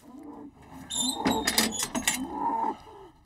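An Angus bull lows in a hoof-trimming crush, a low drawn-out bovine call broken by several sharp, clattering knocks in the middle.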